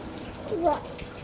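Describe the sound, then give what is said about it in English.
Running water as vegetables are washed under a tap while dinner is prepared, a steady soft hiss throughout, with a brief voice rising over it midway. “Papa is preparing dinner, right? Yes. What is Papa washing?”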